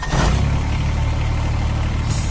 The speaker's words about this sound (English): That's the sound of a Kubota VX series, America's top-selling subcompact tractor for over 11 years running.